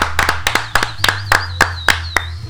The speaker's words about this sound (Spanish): Un aplauso, por favor.